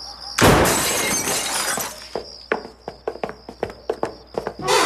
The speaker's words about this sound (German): Da, das Kellerfenster ist kaputt. Ja, das sehe ich, aber da kommen wir nicht rein. Los, aufbrechen!